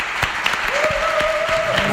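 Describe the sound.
Applause rises from a gathered audience, dense clapping with a few sharper claps standing out, held at an even, fairly loud level for the whole stretch.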